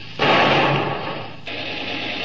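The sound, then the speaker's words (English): A ship's gun fires a warning shot across the bow of a motor launch that runs without lights: a sudden loud blast of broad noise whose rumble fades slowly, with a second, weaker surge about a second later. “One across the bow. Fire!”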